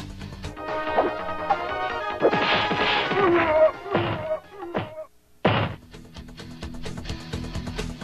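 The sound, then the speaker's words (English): An arcade fighting game combo, a high fierce punch chained into a flash kick, lands as a run of loud smacks, thwacks and crashes. A brief lull comes near the middle before another hard hit and more impacts. “This produces a combination where you hit your opponent with a high fierce punch and immediately go into a flash kick. Now here's the whole combo.”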